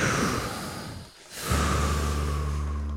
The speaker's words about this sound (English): Deep breath.